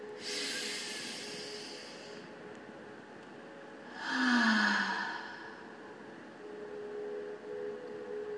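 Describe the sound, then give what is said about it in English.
A deep breath is drawn in through the nose as a soft airy hiss, then released out through the mouth in a louder sighing exhale, over a faint steady hum. “I'd like to start with 3 deep breaths, in through the nose and out through the mouth.”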